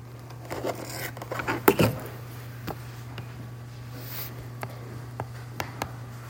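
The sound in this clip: Writing on a board produces scattered short scratchy strokes and light taps over a steady low hum, with a denser cluster of scraping partway through.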